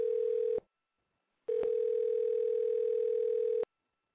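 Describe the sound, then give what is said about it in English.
A telephone tone while dialing out: a steady, pure tone sounds briefly, stops for about a second, then returns for a longer stretch before cutting off, with no other sounds. “It's a new feature. I get to dial out.”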